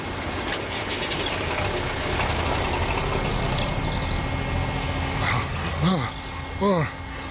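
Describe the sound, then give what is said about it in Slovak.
A concrete mixer churns a batch for a house foundation, giving a steady, rough engine drone with a watery wash running under it the whole time. Voices come in over the noise near the end. “Hej, ja viem. Miešam betón za fundament.”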